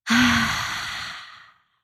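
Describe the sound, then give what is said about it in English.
A deep breath exhaled with an audible release during a guided breathing meditation: one long, breathy exhale that starts strong and fades steadily over about a second and a half, then silence. “And then take a deep breath in through the nose. Hold it at the top. And exhale, audible release.”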